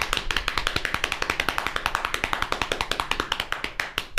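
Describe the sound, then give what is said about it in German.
Rapid, even knocking: a long unbroken run of many sharp taps at a quick, regular rhythm, with no voices. “Ich dachte, du hörst erst auf zu klopfen”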